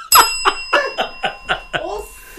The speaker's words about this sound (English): Ring that bell!